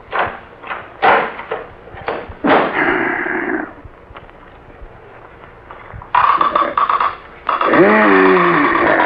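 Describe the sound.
A key unlocks a tower door with a run of sharp metallic clunks and knocks, then the door opens and people begin talking.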